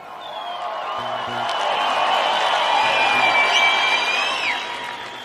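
Audience cheering and whistling at a band's tenth-anniversary concert in the Olimpiyskiy arena, a dense, sustained roar that swells through the middle and eases slightly toward the end, with shrill whistles rising above it.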